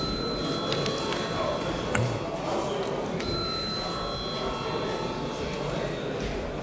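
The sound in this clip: A bell rings in a parliament chamber before a vote, a steady, sustained ringing that lasts the whole clip over dense, noisy background sound.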